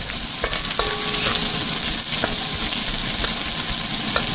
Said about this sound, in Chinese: 热锅煸炒，再倒入牛肝菌，放入大量的蒜，足够的猪油和大蒜还可以去除和预防菌子的微毒。